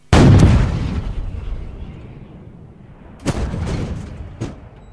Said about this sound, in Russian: Ну что ж, посмотрим, как стреляет из пушек французишка.